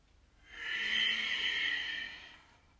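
A single long breath drawn in during a guided breathing exercise: a soft, airy hiss that swells, holds steady for about two seconds and then fades, with no voices.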